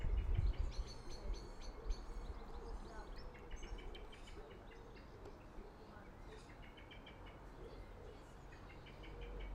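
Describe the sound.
A noisy bird calls repeatedly with bright, quick chirping trills, fairly faint, over a low steady outdoor background that also holds softer bird calls.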